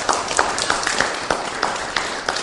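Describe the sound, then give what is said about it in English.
Audience applause: scattered clapping taps out in a loose, steady stream, fairly light and never building to a roar. “Can we have a just round of applause just to say well done?”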